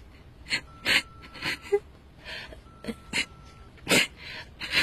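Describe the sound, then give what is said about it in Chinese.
A woman cries in a series of short, breathy gasping sobs and sniffles, irregularly spaced and fairly soft, with no words. “你别哭啊，那擦一下吧。”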